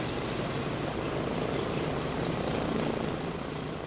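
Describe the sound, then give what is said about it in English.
The engines of a World War II Boeing B-17 bomber drone as it prepares for take-off at an airport in Columbia, giving a dense, continuous roar with no breaks or pauses. “A World War II Boeing B-17 bomber is about to take flight from the Jim Hamilton L.B. Owens Airport in Columbia.”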